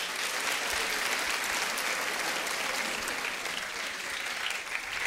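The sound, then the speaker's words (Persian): An audience at a religious gathering celebrating Imam Reza's birth applauds, with dense, continuous clapping held at an even level for about five seconds. “کارو میبریم یه جای دیگه، یه کف مرتب بزن.”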